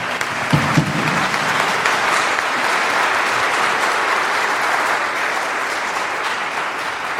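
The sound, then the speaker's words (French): An audience applauds at a French-language evangelical church service: dense, sustained clapping from many hands at a loud, even level for several seconds, with a couple of sharper claps standing out near the start. “Est-ce qu'on peut acclamer pour notre Seigneur?”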